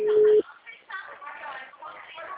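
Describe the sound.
A single steady electronic ringback tone sounds on an outgoing phone call, short and level, then cuts off as people begin talking over the line.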